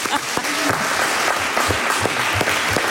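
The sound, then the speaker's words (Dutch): An audience applauds at a poetry award event in a venue, a steady dense patter of clapping at even loudness throughout, with a few louder individual claps and faint voices mixed in. “Ja, mag ook een applaus hebben.”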